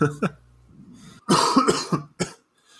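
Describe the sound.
Harsh coughing from someone who has inhaled rice that is stuck in the throat. A short early cough is followed by a tight cluster of loud, rasping bursts, then one final cough and silence.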